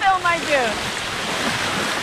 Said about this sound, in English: It's a turbulent Alaska day with the wind whipping up a mist of rain and seawater